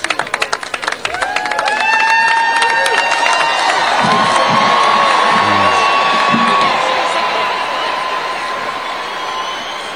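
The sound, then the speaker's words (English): Crowd cheering and whooping at an Air Force graduation ceremony. A few sharp bursts open into a loud, sustained roar of voices that eases slightly toward the end. “And everybody cheered him. They did. They cheered his fall.”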